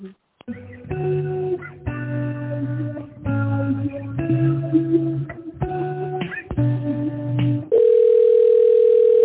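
Telephone tones play while a call is transferred to a manager: a series of buzzy, harmonic tonal bursts separated by short gaps, then a steady continuous tone that holds to the end, with no talk.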